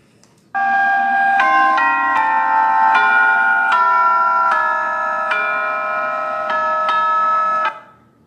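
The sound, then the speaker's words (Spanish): Tubular bells struck in a series of many bright, metallic strikes. The rich ringing tones overlap and sustain between hits, then stop and fade out. “campanas tubulares”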